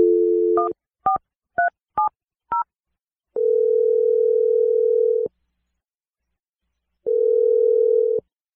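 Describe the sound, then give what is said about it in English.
A telephone number being dialed: a short dial tone, then five quick keypad tones of varying pitch, followed by two long, steady ringing tones separated by a silent gap. “Anyway, let's call Lewis. Are you feeling ready, Jessica? Sure. Okay, here we go. I'm going to dial his number right now.”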